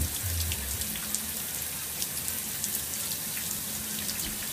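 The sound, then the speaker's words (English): Running tap water rinses a skin-cleansing nozzle in a bathroom, a steady, even hiss of flowing water with faint spattering. “I rinse off the nozzle thing now. Rinse it off thoroughly.”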